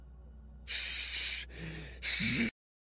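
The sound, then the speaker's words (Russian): A human voice imitates a sly snake's hiss: two loud, breathy bursts of hissing separated by a softer breathy gap, cutting off abruptly into silence. “Ладно, а теперь пошипи, как змея. Как хитрая змея».”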